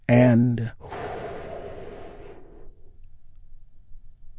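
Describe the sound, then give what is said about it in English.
A deep breath, heard mostly as a long, breathy exhale like a sigh that fades out over about two seconds, after a brief voiced sound at the start. “Join me in taking another big, deep, healing breath right now.”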